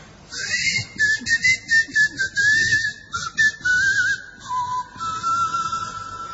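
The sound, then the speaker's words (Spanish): Whistling by islanders said to communicate only by whistling instead of speaking. A steady, wavering whistled line with short breaks, its pitch stepping gradually lower toward the end, with no voices. “a poco de llegar a Tracoda, se escuchaban los silbidos de los habitantes”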